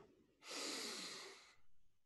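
A person draws in one long, deep breath, a soft airy rush that swells and holds for about a second before trailing off into quiet breathing.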